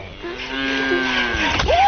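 A cow moos in one long, loud, low call that holds a steady pitch and then sweeps upward near the end, with no talking.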